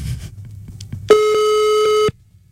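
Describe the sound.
A telephone busy signal on an unanswered call: one steady, mid-pitched electronic tone lasting about a second, which cuts off sharply after a moment of faint low noise.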